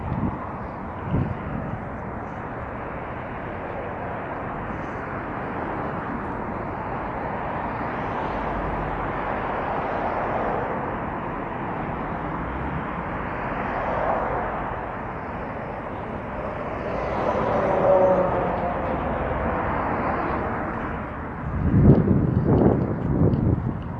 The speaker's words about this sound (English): I'm trying to keep my mouth shut for the next minute or so. And we can listen to the sounds of this bike ride.